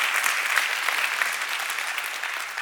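A church audience claps to welcome visiting pastors from the West Monroe area, a dense, even patter of applause lasting under three seconds.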